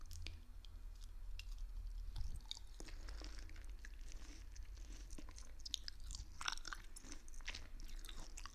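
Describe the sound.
Soft, wet chewing of sweet food from a boxful sent as a gift, with many small crunchy clicks and squishy bites scattered through the stretch. The sound stays faint and close, with no talk.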